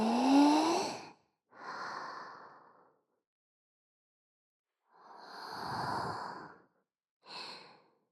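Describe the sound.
Deep breathing sounds, four long airy breaths spaced apart with pauses of silence, each swelling and fading softly with no talking.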